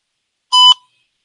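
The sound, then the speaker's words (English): Voicemail beep: a single short, high-pitched electronic tone lasting about a quarter second, loud and clear against silence. “Another voicemail.”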